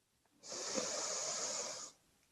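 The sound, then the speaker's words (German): A deep breath drawn in through the nose during a guided breathing exercise: one steady, airy hiss lasting about a second and a half, soft and even, with no talking over it. “Wir atmen ein drittes Mal tief durch die Nase ein”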